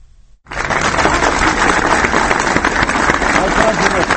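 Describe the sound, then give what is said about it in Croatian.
Party supporters in central Belgrade burst into applause after a short quiet opening, a dense, crackling mass of clapping that stays loud and even, with voices mixed into the crowd noise. “Aplauz pristalica koje su centrom Beograda pronele kutije sa potpisima više od 300.000 ljudi.”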